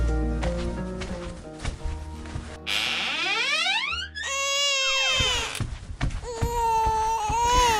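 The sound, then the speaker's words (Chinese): A hungry baby cries while its mother has no milk to feed it. The long, wavering wails swoop up and down in pitch and are loud throughout. “孩子，你别哭了，妈妈今天也是没什么东西吃，我哪里有奶水来喂你呀、宝贝儿，你别哭了”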